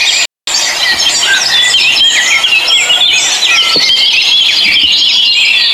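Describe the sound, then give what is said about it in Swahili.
Dense, high-pitched chirping and squealing from a flock of birds passing by, a loud continuous chatter of overlapping calls with one brief dropout near the start. “Angalieni lile kundi la ndege wanaokupita pale.”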